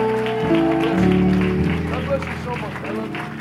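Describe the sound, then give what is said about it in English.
A church audience claps to welcome new members over sustained music, building into a dense, steady round of applause. “Give your new brothers and sisters a great big hand clap.”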